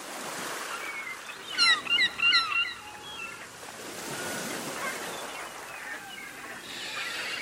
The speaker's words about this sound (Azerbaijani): Heç bir şey dəyişilməyib. Dənizin dalgaları da həmən həməşəki qərarsız dalgalardır. Qərarsız, həmi də yorgun.